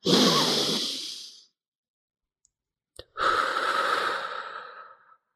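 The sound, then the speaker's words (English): A long, deep breath drawn slowly: a breathy inhale of about a second and a half, then a pause broken by a faint click, then a longer, fuller exhale that gradually fades away. “let's take a deep breath together now. And I have him do it with me, and I do a long one.”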